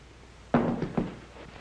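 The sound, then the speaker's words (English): A gun being dropped lands with one dull thunk, followed by a couple of lighter knocks, fairly faint against a quiet background with no talk. “Drop that gun. Drop it, I say.”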